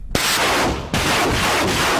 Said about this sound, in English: Further back, the artillery takes aim.